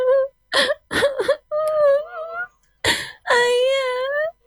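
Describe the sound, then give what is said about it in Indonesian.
A seven-year-old child cries after being separated from the father during an evacuation, letting out several sobbing, wailing bursts of wavering pitch that end in a long, drawn-out wail. “Ama, seorang bocah berusia 7 tahun yang terpisah dari ayahnya saat evakuasi, menangis memeluk lututnya di sudut ruangan.”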